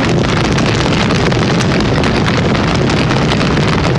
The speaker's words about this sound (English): So cue that fire.